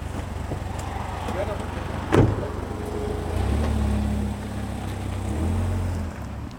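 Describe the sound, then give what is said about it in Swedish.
A paratransit car driving away: a low, steady engine rumble swells midway and holds, then eases. A single sharp knock sounds just before, and faint background noise runs throughout. “Och där åkte Fredrik Jönsson iväg med färdtjänsten mot sitt arbete i Malmö.”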